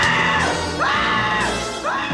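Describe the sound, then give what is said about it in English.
A man screams loudly and without pause while running from a house. The raw, strained yell wavers, with sharp pitch bends recurring through it. “runs screaming from the house to go back in time”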